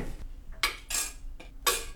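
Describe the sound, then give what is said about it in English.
Metallic clatter of a lid being put on a cooking pot of dal with tadka: a few sharp, bright clanks and rattles, loud and separated by short pauses, with no talking. “So we're gonna just put the lid on so that it can boil.”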